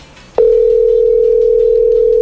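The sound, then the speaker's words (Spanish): A telephone dial tone sounds on speakerphone while calling a taxi driver: after a short faint noise, a loud, steady, unbroken tone at one pitch runs to the end. “Es por la bocina. No, estamos marcándole en este momento a Caliche, el taxista que además se ha hecho viral.”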